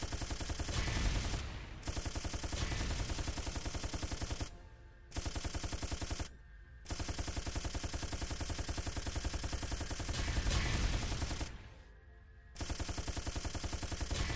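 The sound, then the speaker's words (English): Machine gun fire in a video game comes in about five long, loud, continuous bursts of rapid shots, each broken off by a short pause. “I got a machine gun. Yeah. I'm all about wasting bullets.”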